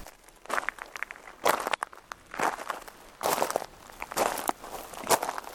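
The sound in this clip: Footsteps of people on a short walk to a village church, many uneven crunching steps in a loose rhythm, moderately loud.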